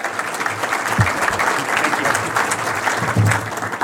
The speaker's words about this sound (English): Ladies and gentlemen, help me welcome our first presenter, Dave Worrell. Come on up, Dave.